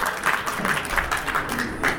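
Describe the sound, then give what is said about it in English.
A spontaneous flurry of applause from a studio audience during a discussion programme, with scattered, uneven claps rising and falling at a moderate level. “there's a flurry of a round of applause there. Feel free. Spontaneous applause, always welcome.”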